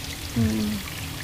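Mountain spring water flowing in Cikapundung, a faint, steady wash of water marked by one short, clear gurgling pour tone.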